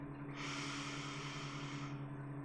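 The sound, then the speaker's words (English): One slow, steady inhale through the nose lasting nearly two seconds, with a soft airy rush over a constant low hum. “Just follow me. Just breathe in”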